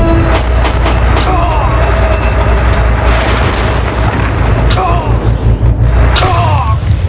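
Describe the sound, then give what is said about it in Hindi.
Tank cannon fire in a tank battle at Chawinda: heavy booming blasts repeat over a loud, dense rumbling din that never lets up. “अब हमें बिना रुके उन दो टैंकों पर फायर करना है। Go and send them to hell, fire!”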